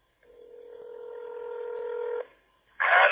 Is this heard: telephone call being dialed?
yes